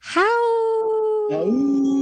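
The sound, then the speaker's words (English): A wolf-like howl: one long, steady, tonal cry that rises briefly and then holds its pitch, joined near the end by a second, lower howl that slides up and overlaps it. “we should have prepped you for the howl”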